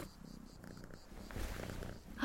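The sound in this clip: A female cat purrs in a soft, continuous low rumble that pulses steadily and grows slightly stronger toward the end of the short stretch.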